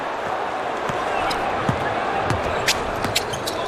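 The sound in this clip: A basketball is dribbled during a basketball game: a few dull, low thumping bounces over steady crowd noise and commentary.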